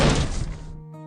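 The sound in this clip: A door being shut during a family argument, one loud heavy thunk that fades over about half a second and leaves a sustained musical tone ringing alone.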